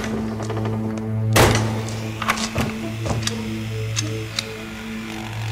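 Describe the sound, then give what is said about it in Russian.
A door bolt slides shut and the door is fastened with a padlock: a few sharp metallic clacks and thunks, then lighter ticks, over a steady low hum. “задвигает щеколду, закрывает дверь на висячий замок”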